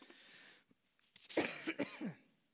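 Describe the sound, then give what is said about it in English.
Coughing from a man speaking at a microphone: a soft breathy lead-in, then a quick cluster of a few sharp, harsh coughs that fade out at the end. “I got to put the other hand up if I cough.”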